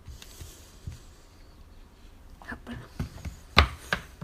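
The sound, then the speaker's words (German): Knife chopping ingredients for a baking recipe that includes cranberries: a few sparse, crisp cuts on a board that grow more distinct toward the end, fairly faint. “Es dauert ein wenig, bis alles fertig geschnippelt ist.”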